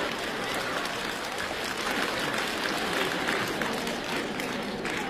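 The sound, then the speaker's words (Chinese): Sustained audience applause at a comedy stage show, a dense, even wash of many hands clapping that holds at a steady level for the whole stretch. “各位还鼓掌呢”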